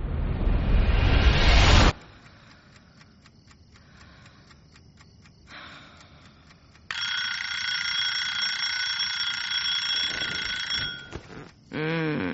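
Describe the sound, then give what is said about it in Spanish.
An alarm clock rings with a shrill, steady electronic tone for about four seconds, then cuts off abruptly. “¿qué hora es? ¿Para qué has puesto el despertador?”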